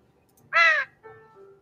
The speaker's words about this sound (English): I believe that was a raven. That was a raven. That was a bird. Yes. It was so loud.